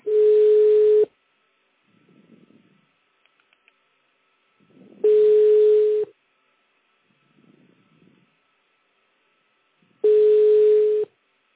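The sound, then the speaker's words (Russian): Telephone line tone on a busy number: three one-second steady tones repeating about every five seconds, with faint murmurs in the quiet gaps between them. “Абонент разговаривает по другой линии. Please hold on for answer or call back later. The number is busy.”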